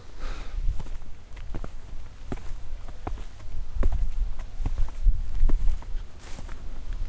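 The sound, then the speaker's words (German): Footsteps of people walking up onto a dike, a long run of steady, soft steps on open ground with no talk. “Oh, wir laufen jetzt auf den Deich hoch.”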